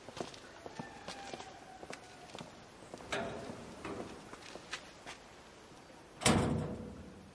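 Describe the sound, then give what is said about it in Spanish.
A door shuts with one loud, sharp thud near the end, after a few scattered footsteps and light knocks. “cierra la puerta”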